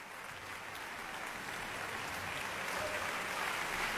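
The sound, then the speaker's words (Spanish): Applause from a concert hall audience at a cultural center, dense and steady clapping that holds at an even level and swells slightly toward the end. “Y ahora mismo escuchamos a la sala de conciertos del Centro Cultural Tlacná reconocer, aplaudir, celebrar al maestro Emanuel Quijano.”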